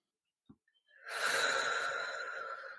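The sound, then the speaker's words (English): A long, deep breath drawn during a guided relaxation and grounding exercise: a steady breathy rush lasting nearly two seconds, coming after a faint short click. “Sit or stand nice and tall with me. And take a super deep breath.”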